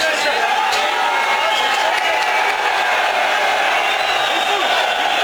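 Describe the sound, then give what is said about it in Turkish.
Football fans crowd an airport, cheering, clapping and chanting in a dense, continuous wall of voices with no pauses. “Tezahüratlar yapan taraftarlar havalimanında izdiham oluşturdu.”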